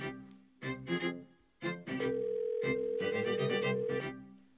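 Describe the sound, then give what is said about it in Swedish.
A telephone ringing tone from an outgoing call holds steady for about two seconds. It sits faintly beneath busy, patterned tonal sound that comes in several bursts. “nu är det dags att vi ska ringa till Gustav och snacka lite choklad”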